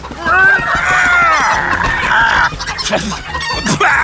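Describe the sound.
Hens clucking and squawking in a henhouse, a dense stretch of many overlapping, loud calls that carry on without a break.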